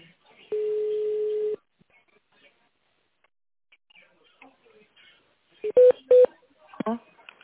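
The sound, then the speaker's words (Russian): Telephone keypad tones on a phone line after an automated switchboard greeting in Russian asks callers to dial in tone mode: a long steady beep, a quiet pause, then two short bright tones. “Пожалуйста, наберите номер нужного вам абонента в тональном режиме.”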